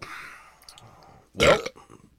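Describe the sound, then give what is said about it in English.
A single loud burp in a studio, a short rough belch that bursts out after a stretch of quieter, low sounds. “I out burped in my own studio.”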